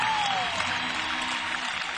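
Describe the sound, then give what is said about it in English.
A concert crowd gives the road crew a round of applause, a dense, sustained wash of clapping that stays steady and loud throughout. “if you'd give them a nice round of applause”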